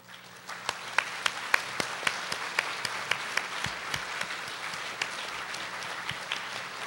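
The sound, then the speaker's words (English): A church audience claps to welcome newcomers standing up at a worship service. The applause is many quick claps, steady and fairly soft, that go on for several seconds. “我们其他的弟兄姐妹，我们用鼓掌来欢迎他们。”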